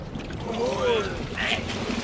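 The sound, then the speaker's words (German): Water washes steadily around a rowing boat lowered from a whaling ship and rowed across open sea, with faint creaking, whistling tones over a continuous sloshing bed. “In einiger Entfernung von der Pequod drehte die Jungfrau bei, ein Boot wurde weggefiert und ihr Kapitän, der ungeduldig im Bug statt im Heck stand, wurde zu uns herübergerudert.”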